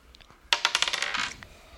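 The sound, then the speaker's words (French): A game token won in a dice game drops with a clinking rattle: many quick, bright clicks tumbling together, fading as it settles, with no voices. “tu as gagné ton premier jeton.”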